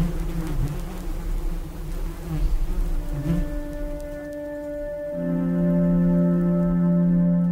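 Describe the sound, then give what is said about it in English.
A bee buzzes right up against a microphone, producing a loud, booming low drone with strong steady harmonics that grows fuller and louder in the second half, with no voices. “with a microphone going right up to a bee, and suddenly you hear this kind of boom, you know, it's like a sort of rocket ship when it's that kind of loud”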